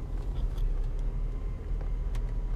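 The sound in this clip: A car being parked, its engine giving a steady low rumble and hum throughout, with faint light ticks above it.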